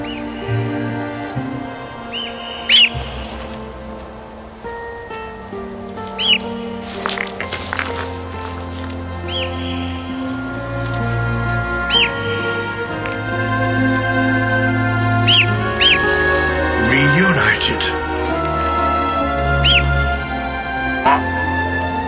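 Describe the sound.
Bird chicks call with thin, high-pitched peeps, a few scattered chirps spread across the stretch over a steady low background.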